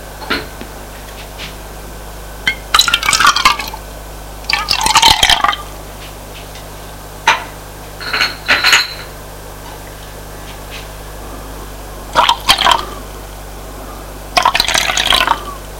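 Tea and coffee poured into cups: several separate bursts of splashing, trickling liquid, each lasting about a second, with short pauses between pours over a steady low background hum.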